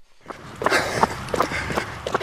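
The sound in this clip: A 56-year-old man runs along a dirt trail on the Blackfeet Reservation in Montana, his footfalls landing as many quick, irregular thuds over a soft background hiss.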